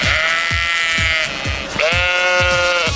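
Sheep bleating: two long, loud, wavering bleats with a rich harmonic buzz, separated by a short pause.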